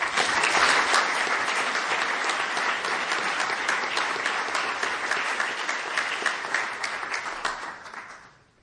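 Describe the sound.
An audience applauds to welcome the opening plenary speaker at an ASA meeting. The clapping is dense and sustained for about eight seconds, then tapers off and fades at the end.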